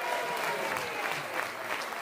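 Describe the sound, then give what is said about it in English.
An audience claps for a participant after a chin-up attempt, brisk and steady applause that keeps an even level for the whole stretch. “I think Connor gets a big clap there.”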